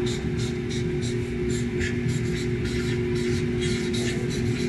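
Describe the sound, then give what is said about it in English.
A red line is drawn with a marker in a run of short, scratchy squeaking strokes over a steady low hum. “I can see in the reflection, you can't even see the red line I just drew here.”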